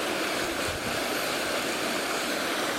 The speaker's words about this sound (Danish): Hvad kan man sige, når vandet det bruser på den måde?